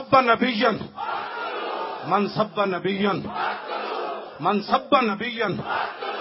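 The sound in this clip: A crowd at a religious gathering chants a slogan in unison, loud shouted phrases coming in repeated rhythmic bursts with brief pauses between them.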